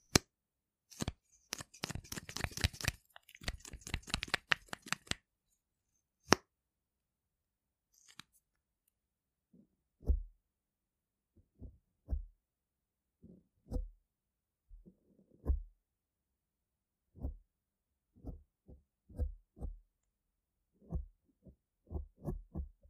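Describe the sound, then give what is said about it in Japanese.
Mascara is brushed onto someone's lashes, first in a dense run of quick scratchy strokes, then in sparse soft ticks and taps after a pause. “マスカラ塗るわよ。”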